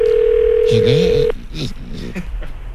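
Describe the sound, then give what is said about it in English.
Telephone line tone as a radio host calls a listener: a steady single-pitched tone holds for about a second while a voice talks over it, followed by more speech. “Tennessee, let's get them on the phone.”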